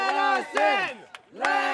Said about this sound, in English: That's the sound of protests this past Friday morning outside the Marciano Art Foundation.